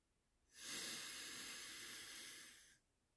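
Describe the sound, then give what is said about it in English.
A single long, deep breath drawn in through the nose or mouth during a calming bedtime breathing exercise: a steady, soft airy hiss that rises quickly, holds evenly for about two seconds, then stops, with quiet before and after. “Snuggle up to your pillow or favorite stuffed animal. And take a nice, big breath in with me.”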